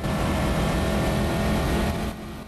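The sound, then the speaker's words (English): A riding lawnmower engine drones as it picks up speed on a road. The hum is loud and steady with strong tonal overtones, then drops off sharply near the end. “his mower rapidly gathers momentum”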